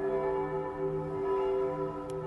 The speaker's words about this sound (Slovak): Tak necháme zaznít trnavské zvony. Máme pravé poledne, čili je to takový koncert místních chrámů, včetně tedy kostela svatého Mikuláše